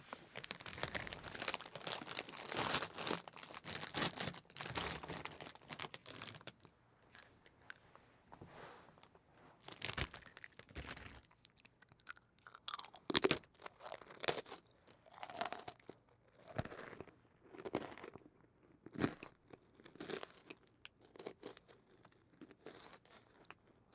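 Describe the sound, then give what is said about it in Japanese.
Crunchy food being bitten and chewed, with many irregular crisp crunches and crackling bites, steady early on and then in separate bursts with short pauses. The crunching is soft and close, with no talk. “美味しそうな感じに聞こえてるかな。今度はこっち側で食べるね。”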